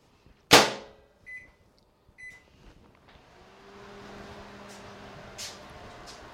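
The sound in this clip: A microwave oven is set to 30 seconds on high to reheat a stirred mixture. A sharp clunk of the door shutting comes first, then two short button beeps, then the steady low hum of the oven running.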